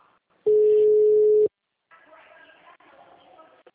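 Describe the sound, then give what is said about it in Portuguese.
A phone call gives one steady ringing tone lasting about a second, followed by muffled, indistinct talk. “Nessa você vai ligar de áudio e vídeo pra mim, mano.”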